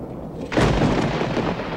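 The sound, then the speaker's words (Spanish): Distant thunder of an approaching storm: a deep, broad rumble swells suddenly about midway and rolls on steadily to the end, loud over a low background murmur. “Amenaza tormenta.”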